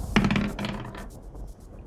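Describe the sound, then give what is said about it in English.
Dice clatter onto a surface during a tabletop game's timed lightning round, with one sharp rattling impact followed by several lighter, fading clicks. “Lift off and the clock is starting. Lightning round. Grab your dice.”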